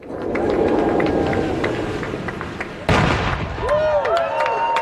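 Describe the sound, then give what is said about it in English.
A 26-foot wooden replica fishing boat rolls down the rail tracks of a marine railway into the sea with a rumbling, grinding noise for about three seconds. A single sharp, loud ceremonial cannon shot then cuts in abruptly. “That's the sound of the 26-foot boat launching from rail tracks at Bradley and Waters Marine Railway into Long Island Sound, followed by a ceremonial cannon shot.”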